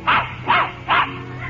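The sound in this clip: A small trick dog barks three times to count, with sharp, evenly spaced, loud yaps and short pauses between them.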